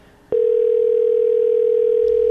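A phone line rings while calling a pizza restaurant that is closed. One loud, steady mid-pitched tone holds for about two seconds and then cuts off sharply, with nothing else heard.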